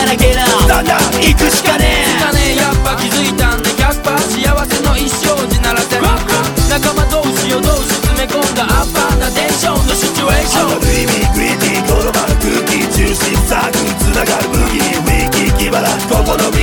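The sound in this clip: Upbeat song from the Nintendo DS video game Osu! Tatakae Ouendan plays for about seventeen seconds. It is loud, dense and energetic, with a steady pounding beat and busy layered instruments.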